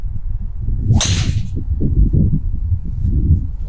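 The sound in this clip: A golf driver strikes the ball on a long drive: one sharp, bright crack with a brief swishing tail, set against a steady low rumble of background noise.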